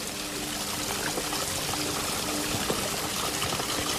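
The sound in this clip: Water trickles and splashes over small waterfalls in a forest of ferns, trees and mosses, a steady, continuous rushing wash with faint scattered drips and clicks and no voices.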